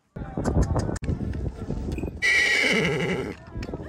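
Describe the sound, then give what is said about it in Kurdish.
A three-year-old purebred Kurdish horse lets out a loud, bright whinny lasting about a second, with people talking before it and a few softer sounds after. “ڕەچەڵەکی کوردیە بابی ئێستا لە ئێرانە دوداچی ئێستا لە سلێمانیە هەردوو دەمداچێن بابی ڕەسەنی کوردی ئەسپەکەش خۆی ڕەسەنی کوردیە.”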